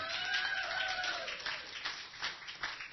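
Faint applause comes from a church audience cheering two people at a service. A drawn-out vocal cheer falls in pitch at the start, then scattered, uneven claps follow.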